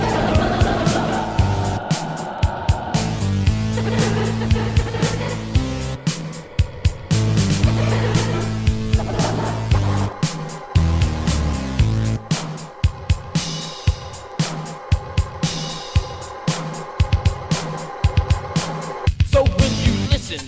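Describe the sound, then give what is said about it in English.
DJ turntable scratching from a hip-hop DJ spinning two or sometimes four turntables: many sharp, rhythmic scratch cuts ride over a loud, steady beat throughout. “You hear scratching, turntables as you cross the floor. And DJs spin on two, and sometimes four, like this.”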